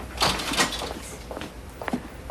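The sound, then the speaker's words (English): A guard opens a door into a large warehouse-style evidence room, giving a few soft knocks and clunks with a quiet gap in the middle. “The guard opens the door for her, and she walks into a large warehouse-style room”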